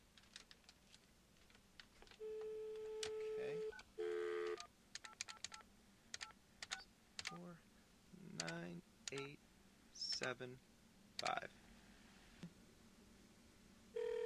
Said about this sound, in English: Debate Watch, let's just call this toll-free number and see if that's where we can leave our comment.